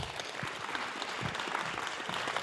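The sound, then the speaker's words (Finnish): An audience gives warm applause to welcome a writer and her interviewer at a Sunday morning book event: steady, fairly soft clapping continues through the whole clip with no talk. “Annetaan heille oikein lämpimät aplodit.”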